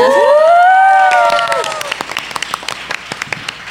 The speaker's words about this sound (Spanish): Bueno, al escenario, vamos. La Resentimiento y Miss Cordillerita, bienvenidas. Un fuerte aplauso.